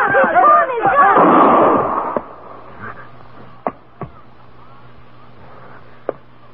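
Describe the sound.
A gunshot in a Western drama scene: a loud, broad blast mixed with voices over the first two seconds. Quieter background follows, with a few faint, sharp clicks.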